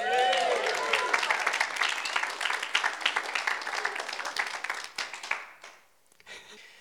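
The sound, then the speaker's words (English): An audience claps to welcome a speaker to the front at a talk: dense, even applause that holds steady for several seconds, then thins and fades out. “can you put your hands together and I'll welcome up kingdom agent Ellie Holt.”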